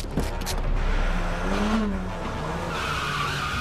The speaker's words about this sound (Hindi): और गाड़ी भी बड़ी तेजी से चली गई।